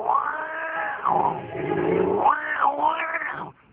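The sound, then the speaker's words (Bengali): A black cat yowls loudly behind a house, one long drawn-out wavering cry lasting several seconds, its pitch repeatedly rising and falling before it cuts off. “বাড়ির পেছন দিক দিয়ে একটা কালো বেড়াল বিকট ভাবে ডেকে গেল।”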